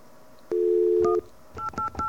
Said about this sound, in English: Whoops. I dialed the 2 instead. Hold on. Let's try that again.